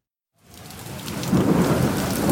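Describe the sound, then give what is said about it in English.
A thunderstorm with steady rain, a broad hissing wash that rises out of silence and grows louder, with low rumbling thunder rolling beneath the downpour. “It's a dark and stormy night.”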